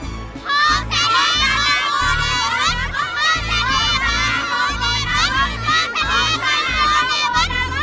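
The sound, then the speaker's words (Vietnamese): Children shouting and cheering together inside a temple: a loud, dense, continuous babble of many young voices that stays steady throughout, with crowd noise beneath. “nghe con trẻ reo lên trong đền thờ rằng:”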